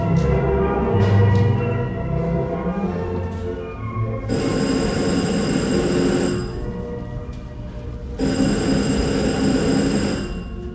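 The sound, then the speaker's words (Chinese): A telephone rings twice, each ring a bright, steady electric bell tone lasting about two seconds, separated by a short pause, over a continuous low rumbling background. “电话又来了”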